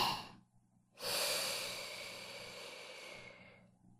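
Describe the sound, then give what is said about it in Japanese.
A slow, deep breath drawn in during a guided deep-breathing exercise: after a brief faint breath, one long, airy inhalation begins sharply and tapers gradually over a few seconds, with no talk. “大きく、深く、ゆっくりと。せーの、吸って。”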